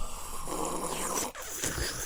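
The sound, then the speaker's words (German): Water bubbles in a bong as it is smoked, a continuous rough gurgling rumble that drops out briefly partway through before resuming. “Das war übrigens kein Tee, das war die Bong.”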